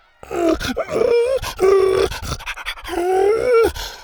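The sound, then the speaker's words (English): A dog whines eagerly in anticipation while waiting with a group lined up at a tournament obstacle course. Three long, tonal whines with wavering pitch, clearly audible, with brief breathy gaps between them. “wagged his tail and whined in anticipation”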